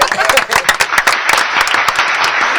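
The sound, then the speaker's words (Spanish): Applause from an audience at a live show: dense, continuous clapping that stays loud and even throughout. “Aplausos, por favor.”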